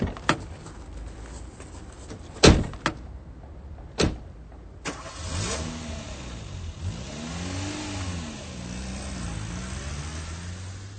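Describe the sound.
A few sharp clunks of a car door shutting come first. Then the engine starts and revs in repeated rising and falling sweeps as the car drives off, with no voices.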